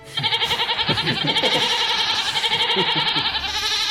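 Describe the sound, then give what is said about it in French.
Village goats bleating loudly in a long, continuous, quavering cry that rises and settles with a steady tremble, heard on its own without talking. “Il salue les deux chèvres du village, Marcel et Jean Gland”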